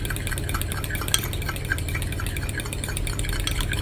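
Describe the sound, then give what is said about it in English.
A beaten egg is mixed quickly, giving a continuous, fairly loud rustling and scraping stir with no pauses and no talk. “Just mix that really quickly. It needs to be a beaten egg.”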